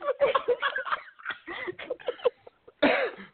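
Two men break into repeated rough coughing fits, the hacking bursts coming in uneven clusters with breathy pauses. A short gap is followed by a final loud cough.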